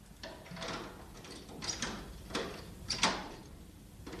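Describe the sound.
A door is unlatched and opened at night, heard as a few faint clicking and rattling knocks over a soft background hiss.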